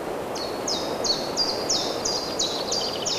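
Birdsong in green countryside with trees: a bird repeats a short, high, bright chirp many times in a steady, even rhythm over a soft, constant background hiss.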